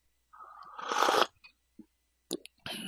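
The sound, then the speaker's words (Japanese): A single slurping sip of tea, a rushing draw of about a second, then a few faint, short clicks and swallowing sounds. It is quiet, with nobody talking. “ちょっとお茶を飲んでから体温めてというか、乾いた口を潤してからお話し続けますが、ちょっとお茶飲みますね。”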